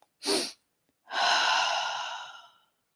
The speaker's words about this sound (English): The pattern is this: two short inhales back to back through the nose, followed by an extended exhale through the mouth. So it goes something like this.